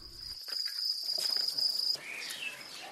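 Crickets chirp at a cricket farm in Kyrgyzstan where they are raised to be made into flour, a continuous high-pitched shrill trill, fairly faint, over a soft hissing background.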